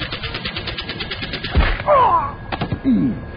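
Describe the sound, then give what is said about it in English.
Machine-gun fire in a dramatized aerial chase at 100 feet up hammers out as a rapid, even stream of shots, broken by a heavy thud and followed by a few shorter bursts. “The idiot with the machine gun managed to hit everyone, even the pilot.”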